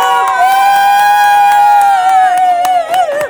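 Crowd cheering and whooping for the hosts of a live show, a loud, steady, high-pitched chorus of sustained woos that holds for about three seconds and wavers near the end.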